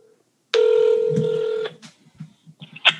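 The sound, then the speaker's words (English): A telephone sounds during an outgoing call with one sustained electronic tone lasting about a second. A few faint, soft clicks follow. “Let me call. I'm calling her.”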